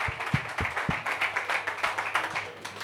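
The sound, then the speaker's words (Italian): Applause from the audience at a comedy night: dense, steady clapping with a few sharper individual claps standing out early, sustained at an even level throughout. “Un applauso a Enrico Veronica”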